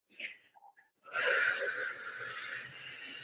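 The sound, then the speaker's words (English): A deep cleansing exhale blown out during a guided breathing exercise: a long, steady, breathy rush of air lasting about two seconds after a few soft, faint breath sounds. “Now with a deep cleansing breath, I want you to blow that out and let that go.”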